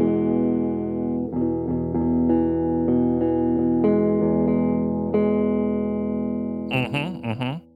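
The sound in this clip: A Suhr Classic JM electric guitar on the neck pickup with the tone rolled back plays warm, muffled notes and chords that ring and sustain. Several notes are struck in turn, then a quick warbling flourish closes the phrase.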